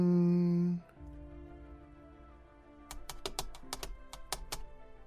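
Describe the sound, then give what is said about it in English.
A series of sharp clicks on a button to open audio diaries in the video game, many short taps in an uneven rhythm. A steady humming tone cuts off before them, followed by a quiet gap. “Okay, how do I access this? There it is. Let me click on this button.”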